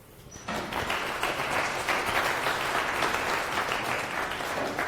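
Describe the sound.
Sustained applause from a conference audience welcoming the opening speaker of a morning Rust talk at FOSDEM. The clapping starts after a brief quiet moment and continues as a dense, steady, even wash of many hands until the end.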